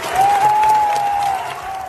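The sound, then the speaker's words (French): A stadium crowd gives a sustained ovation at a European Championship football match, a tribute in the tenth minute to a player who had suffered cardiac arrest. Dense, steady applause and crowd roar fill the whole stretch. “mais surtout par l'ovation à la dixième minute pour Christian Eriksen”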